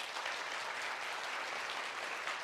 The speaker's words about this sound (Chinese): 我哋有冇都俾掌声我哋嘅天父啊？